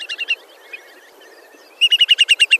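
A sandpiper of a species weighing about 350 grams calls with short, high, bright chirps. A quick burst of four notes is followed by a pause, then a longer, rapid, evenly spaced run of similar notes.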